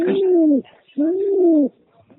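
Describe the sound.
Pigeons cooing: two long, low, smooth coos with a short pause between them, each holding a steady tone before dropping off at the end. No other sound competes.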